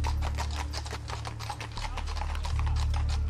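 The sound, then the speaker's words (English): A horse-drawn stagecoach pulls into town: rhythmic clip-clop of hooves over a continuous low rumble of wheels, steady and fairly loud throughout. “the rumble of a stagecoach pulling into town”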